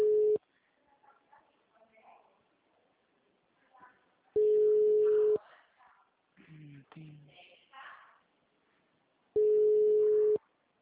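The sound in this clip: A steady telephone line tone after dialing sounds in three roughly one-second bursts, about four seconds apart, with the first cut short at the start. Soft talking and background noise fill the gaps between the bursts.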